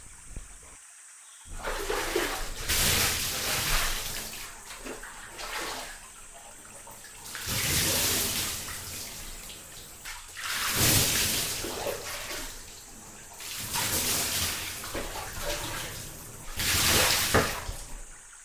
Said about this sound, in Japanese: それじゃお湯流しますね。